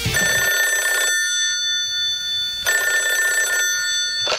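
Telephone ringing in two long electronic bell trills of about a second each, separated by a quiet gap, with a third ring just starting at the end; no voices.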